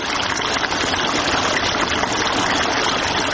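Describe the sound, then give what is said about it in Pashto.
Water rushing steadily while irrigating a pomegranate orchard in Sepidkhar near Tarinkot: a continuous, dense hiss with no breaks. “سیف الله د ترینکوټ ښار اړوند د سپیدخار په سیمه کې د انارو پر باغ اوبه لګوي.”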